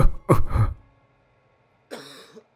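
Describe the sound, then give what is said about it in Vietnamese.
An old man with asthma-like wheezing breath coughs: a quick cluster of rough, rasping coughs, a short silence, then one more harsh cough. “Lão Kha ho lên một tràng dài, hơi thở khò khè như kéo nhị, như người hen suyễn.”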